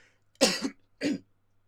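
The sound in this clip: Someone coughs and clears their throat, a harsh rough burst followed by a shorter second one, alone without any talk.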